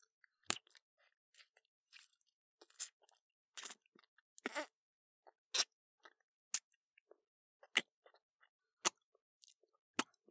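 A creature eating a human chews with many crisp, crunching bites, irregularly spaced and sharp, heard alone against silence.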